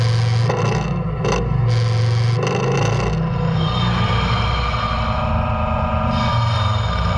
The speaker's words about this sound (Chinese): 叉车已经将我们的目标车辆缓缓地脱离地面。